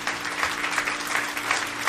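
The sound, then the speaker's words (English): A church audience claps its hands in praise: many hands blend into a fairly quiet, continuous wash of applause with slight swells and no clear individual claps. “Somebody give the Lord a hand clap.”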